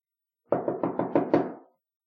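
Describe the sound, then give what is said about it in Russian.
Knocking on the door of a room, six firm knocks in a steady, even rhythm with a short pause before the last, alone and with nothing else heard. “Стучите громче. Он, верно, снова заснул.”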